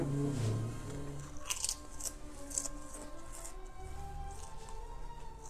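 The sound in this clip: Crisp crunching of haggis-flavoured, cracked-pepper potato chips being bitten and chewed, several sharp brittle crunches at an uneven pace over a low background.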